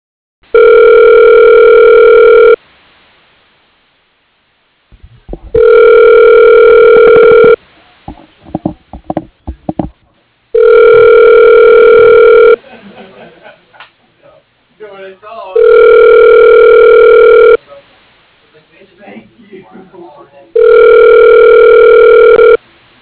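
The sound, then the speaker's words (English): A telephone line ringing after a number is dialed, five loud, evenly spaced ring bursts of a few seconds each, with talk and rustling noise in the gaps between rings. “Okay, dialing.”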